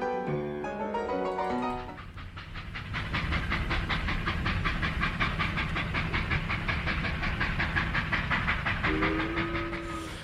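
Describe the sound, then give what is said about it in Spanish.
A train running on rails, its wheels making a loud, steady, rapid rhythmic clatter over a hissing undertone, continuous from start to finish. “en cuanto salimos al pasillo oímos al tren chaca chaca”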